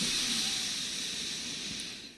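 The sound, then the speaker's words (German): A deep breath is drawn in through the nose as a soft, airy hiss lasting about two seconds. It stays fairly steady, then tapers off slightly at the end, with no voice. “du holst einfach mal mit mir zusammen tief durch die Nase Luft”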